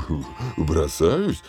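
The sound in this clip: A person's voice imitates a tiger cub's roar while lunging, a few short growling bursts whose pitch rises and falls.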